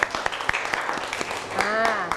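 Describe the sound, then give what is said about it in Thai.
Clapping in praise of children in an English lesson: a steady run of sharp, evenly spaced claps at a brisk pace, moderately loud. “วันนี้ปรบมือให้ตัวเองหน่อยค่ะเก่งมาก”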